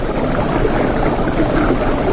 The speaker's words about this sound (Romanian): E în barcă. Unde? Vâslește spre insulă.